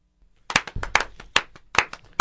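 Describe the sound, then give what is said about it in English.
Audience applauding a poem after a reading: scattered, sharp hand claps from a small group start up from silence and continue unevenly. “Now we're applauding the poem, not the thing the poem's based on, by the way.”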